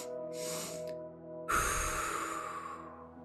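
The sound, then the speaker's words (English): Controlled breathing: brief, sniffing inhales through the nose, then one long exhale through the mouth. The exhale is a breathy hiss that starts strongly and slowly fades, over a low, steady hum. “You'll take two short-ish inhales through the nose and one long exhale through the mouth.”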